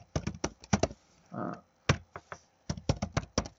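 Rapid typing on a computer keyboard while a name and email address are entered, with crisp clicking keystrokes in several quick runs separated by short pauses.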